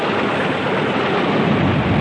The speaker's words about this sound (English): Is there no way out of this terrible storm? Are we doomed to perish in these dreadful seas?